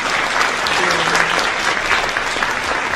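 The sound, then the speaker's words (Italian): Applause from an audience for a guest, dense and steady clapping that stays loud and even for the whole stretch, with no clear breaks. “L'applauso, tutto per te, complimenti, grazie.”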